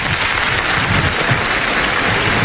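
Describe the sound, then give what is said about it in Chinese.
Applause from a stage show audience welcoming a performer, loud and densely packed clapping with a hissing, rain-like texture that holds steady throughout. “来，虎哥来吧，掌声送给大虎。”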